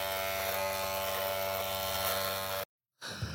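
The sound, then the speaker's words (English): An electric razor shaving whiskers hums with a steady, harmonically rich buzz for over two seconds, then cuts off abruptly; after a brief silence a rougher, lower sound resumes. “I know, but that's why I make sure I had one where you can hear the whiskers cutting. You got to shave yourself with it while you're doing it. There, you can hear. See, whiskers.”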